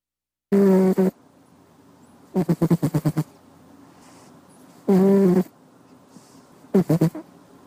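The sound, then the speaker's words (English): A cat snoring while asleep on the end of a desk in a home office: four snores at a slow, even rhythm, some smooth and nasal, others fluttering in quick pulses, with quiet between them. “This is a recording of what I hear as I sit at my desk working in my home office. It's my cat, Rico, snoring as he sleeps on the end of my desk.”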